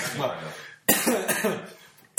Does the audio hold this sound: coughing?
yes